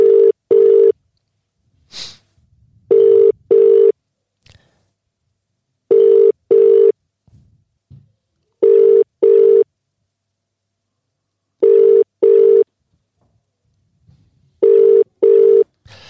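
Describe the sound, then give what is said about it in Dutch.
Ringback tone of an international call to England, heard as a steady double-pulse ring repeated six times with silent gaps between, loud and alone apart from a few faint clicks and rustles. “Dan ga ik dat nu even bellen. Ja, je hoort het al gewoon. Je zit gewoon in het buitenland.”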